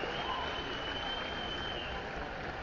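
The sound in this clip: An audience at a Green Lantern movie panel applauds to welcome a guest walking onto the stage. The clapping forms a continuous, even roar and stays fairly quiet overall.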